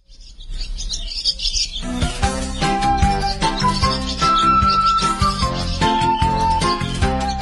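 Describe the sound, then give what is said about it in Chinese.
Birds chirp and twitter in a spring forest, bright high calls and tinkling, jingling notes layered over sustained tones, building from a quieter start into a busy, steady chorus. “树林里好热闹了，充满叽叽喳喳的叫声，各种喧闹声和歌声。嗯，这都是春天的声音。”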